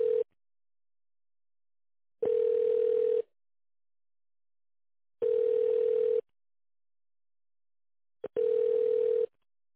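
A telephone line tone sounds while a call is being transferred: a steady single-pitched beep about one second long repeats at even intervals with silence between. Three full tones follow the tail of one at the start, with no voices.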